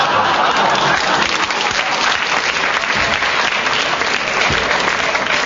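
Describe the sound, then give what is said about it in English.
Studio audience applauding, a loud and dense wash of many hands clapping at once, sustained evenly from start to finish. “They just clap that Kenneth hasn't got any malignance”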